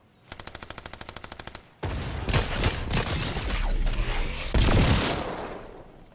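Gunfire in the video game Fortnite starts with a rapid, evenly spaced burst of automatic shots. Dense, loud, overlapping gunfire with heavy booms follows and continues to the end.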